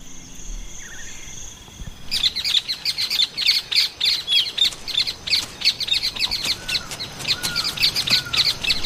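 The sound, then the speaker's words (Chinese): Newly hatched, hungry chicks chirping in their nest. After a quiet opening, rapid, high-pitched chirps and tweets begin and continue in many short, insistent bursts to the end. “刚出壳的小宝贝们已经饥肠辘辘，不断叽叽喳喳地表明这一点。”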